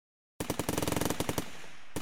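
Automatic rifle fire erupts from inside a factory building after silence: loud, rapid, uneven bursts of shots crackling one after another, sharp and dense, with a brief lull before another burst at the end.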